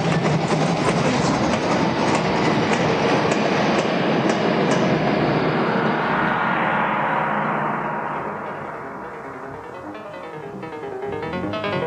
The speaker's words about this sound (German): Da kommt ja doch ein Zug. Schnell, zur Seite!